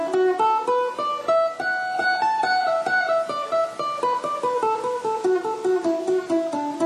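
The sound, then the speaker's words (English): A guitar runs up a D scale with its fourth and sixth notes omitted, then back down, in a brisk, even stream of plucked single notes. “so I'm taking out the fourth note of the scale and the sixth note of the scale, and I get a sound, seventh note of the scale, and I get a sound like this.”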